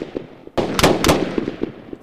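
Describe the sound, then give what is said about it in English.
Gunshots ring out during an armed standoff with sheriff's deputies: a few sharp, loud bangs in quick succession, each ending in a brief rumbling decay. “You shot me. You shot my deputy.”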